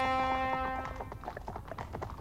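Cavalry horses' hooves clatter through quiet morning villages in rapid, uneven clopping, following a sustained horn-like tone that fades at the start.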